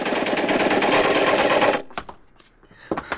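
Machine-gun fire sound effect from a radio drama: a loud, rapid, continuous rattling burst lasting nearly two seconds, followed by a few scattered sharp clicks and thuds.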